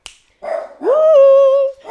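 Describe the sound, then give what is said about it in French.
A pet dog sounds off right after a phone rings, giving a short rough yelp and then a drawn-out, loud tonal bark or whine that rises and holds steady before breaking off. “que dès que mon téléphone sonne, mon chien croit qu'il y a un facteur”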